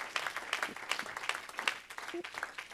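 A church audience clapping their hands in praise, a dense, fairly soft patter of many hands that continues throughout with no clear beat.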